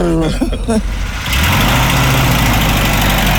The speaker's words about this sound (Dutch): Mary Bond is blij verrast wanneer er plotseling een legerjeep voor haar flat staat. Ja, kijk eens. We zitten hier in een originele jeep.